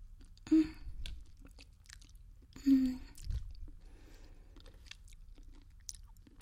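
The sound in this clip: Chewing food while eating: soft, moist crunching and squishing mouth sounds, faint throughout, with a couple of louder bites standing out.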